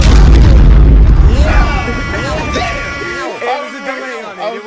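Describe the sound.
A bomb-drop explosion sound effect opens with a deep, heavy boom that rumbles and fades, followed by a tumble of voices over the dying noise.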